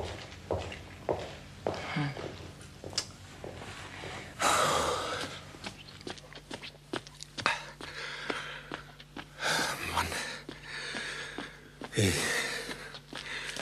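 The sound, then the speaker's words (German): Snorting, sniffing breaths of someone nosing around a crime scene. A few loud bursts of breath stand out between quieter shuffles and footstep-like taps. “Ich muss diesen Tatort noch mal beschnüffeln.”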